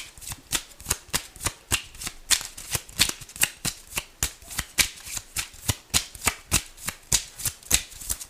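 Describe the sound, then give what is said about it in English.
Oracle cards being shuffled during a tarot reading: many quick, crisp riffles and snaps in a steady, regular rhythm, fairly loud and clear with no talking. “All right, may I have some oracle cards, please?”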